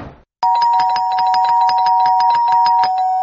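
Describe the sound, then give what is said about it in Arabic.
A doorbell pushed and held down at an apartment door, ringing as a loud, continuous buzzing tone with a rapid, even pulse that runs unbroken to the end after a short gap. “كمل طلوع لحد ما وصل لشقة تانية وفضل معلق ايده على الجرس”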